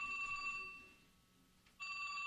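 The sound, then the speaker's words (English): A wristwatch alarm beeps in a thin, high-pitched electronic pattern that fades out, goes quiet for a moment, then starts again abruptly at the same level. “I don't have an alarm. Is that your watch you set? Oh, that's my watch.”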